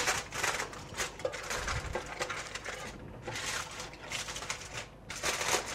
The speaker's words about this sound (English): Just wrap around the meat and fold over any excess foil.